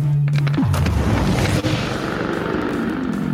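Overcharged rifle blast from a video game: a low steady hum bends downward, then bursts into a loud, broad roaring rumble that sustains at full strength to the end.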